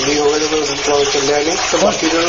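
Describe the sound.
Water runs from a tap in a steady, hissing rush, with a voice talking over it.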